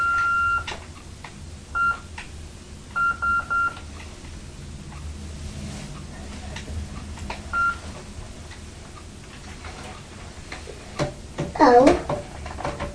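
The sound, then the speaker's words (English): A telephone answering machine beeps: several short, thin electronic tones at one steady pitch, irregularly spaced and faint over background hiss. A voice is heard briefly near the end. “The telephone beeping, wasn't it? Beep. Beep. It must have something to do with the answer machine.”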